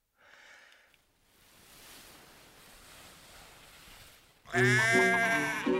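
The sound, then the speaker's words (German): Sheep bleating among farm animals at a livestock show: a wavering bleat at the start, a stretch of soft, rushing noise, then a loud, strained bleat that holds to the end. “Die Wiese füllte sich, die Viehschau begann. Schweine, Kühe, Kälber, Schafe, Pferde.”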